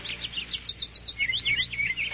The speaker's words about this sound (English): It is spring, and somewhere nearby a bird is singing.